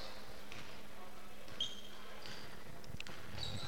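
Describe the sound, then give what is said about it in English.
A basketball is dribbled out in the final seconds of a high school girls' game at Lowell High School. Several dull, spaced bounces sound under steady crowd murmur, with a voice talking over them. “I believe she'll just dribble this out. And yes, she will.”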